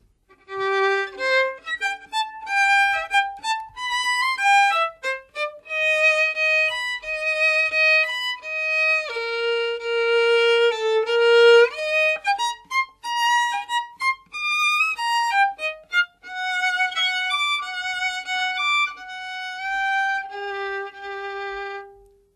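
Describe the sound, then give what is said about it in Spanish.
String instruments play a cheerful, lively melody that portrays a boy's carefree mood. Clear, bright notes move in a bouncy, skipping line with no talking over them. “Prokofiev decide representar a Pedro con la familia de los instrumentos de cuerda.”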